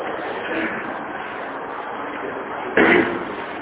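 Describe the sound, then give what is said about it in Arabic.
A door is shut with one short, dull thud that rises over a steady hiss of background noise. “ممكن نقفل الباب لو سمحت.”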